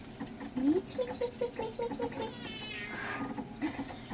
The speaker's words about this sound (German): Ich habe immer eine Katze auf meinen Schiffen gehabt. Sie bringt allen, die zu See fahren, Glück.